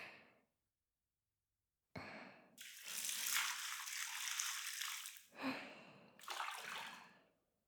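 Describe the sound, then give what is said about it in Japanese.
Hot water pours in a bath to rinse someone's back: a long, loud gush of splashing water lasting a few seconds, then a brief pause and two shorter splashing pours. “まずはお湯で背中を流しますよ。”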